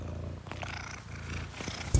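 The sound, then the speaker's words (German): A cat purring while lying on a laptop: a faint, steady, low rumbling purr with continuous pulsing texture and no voices. “Leider geht meine Katze nicht vom Laptop runter. Schnurrt die ganze Zeit, deshalb gibt es jetzt hier ein Intro mit Katzenschnurren.”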